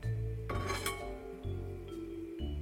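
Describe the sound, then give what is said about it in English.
Garlic and pecans are transferred from a pan into a bowl, with light clinks and scrapes of a utensil against cookware over a steady background hum. “Okay, so the garlic and the pecans are ready. So I'm just going to transfer them to my bowl.”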